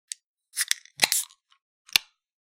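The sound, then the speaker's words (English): A can of Happy Dad seltzer is opened: quiet sharp clicks and a crack of the tab come with short bursts of fizzing hiss, spaced out and heard alone. “I am having a Happy Dad seltzer. And so, we'll see how happy I am when we pop our tops in 3, 2, 1.”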